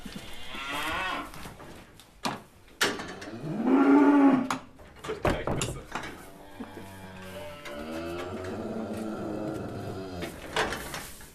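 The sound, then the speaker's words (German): Hungry cattle mooing in a barn, Allgäu horned steers being fattened, with hay in sight but still out of reach. A few long, deep bellowing moos rise and overlap, set among occasional sharp knocks and clatter. “Das Heu liegt jetzt zwar unten im Stall, die Rinder sehen es vor sich, es ist aber noch nicht in Reichweite der Tiere. Die sind schon richtig hungrig.”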